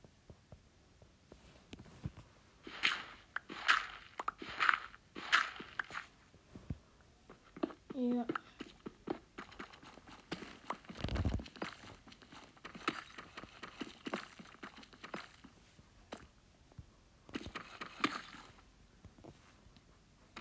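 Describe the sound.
Footsteps walking through a cave in a video game, many soft pattering clicks in an uneven rhythm throughout, with a voice talking over them.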